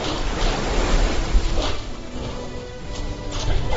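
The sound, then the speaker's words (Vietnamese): Sea waves surging and churning as a frozen sea is split apart, a dense, continuous roar of rushing water with swelling surges and a windy hiss, and no voices. “Nước biển lại nổi sóng, tức khắc quần quận sôi trào.”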